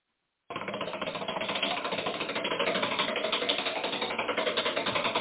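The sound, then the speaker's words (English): Rapid clicks of a spinning game wheel burst in abruptly and tick in a fast, steady stream of many sharp taps that keeps going to the end. “Heading on over to the wheel. Yep. And, I don't know, I guess maybe since I brought it up, I'll do the spinning. Why not? There you go.”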